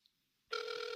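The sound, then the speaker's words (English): A telephone rings: after a moment of near silence, a steady electronic ringing tone begins halfway through and continues loud and unbroken to the end. “That's a phone ringing for people at home.”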